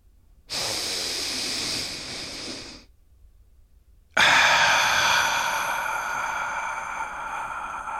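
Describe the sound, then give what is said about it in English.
A deep breath taken alone: a long, airy inhale, a short silent pause, then a longer, louder exhale that trails off steadily. “Let's take a deep breath.”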